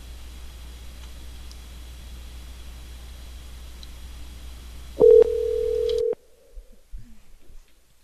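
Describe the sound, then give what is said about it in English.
A telephone dialing and then cutting out: a faint line hiss gives way to a loud, steady single tone lasting about a second, which stops abruptly into near silence with faint rustles. “call my phone and I'll call him from my line. Yeah, it's like, it acts like it's dialing and then it just goes away.”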